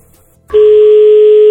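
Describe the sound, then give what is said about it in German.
A telephone tone sounds as a German caller places a call: one loud, steady, pure beep starts after half a second of near silence and holds unchanged to the end. “Achtung, Berger ruft an.”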